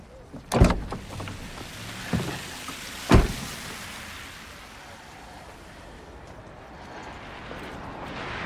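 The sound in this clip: Car door sounds as a person gets into a car: three sharp thuds and knocks spaced over the first few seconds, then a steady low background hiss.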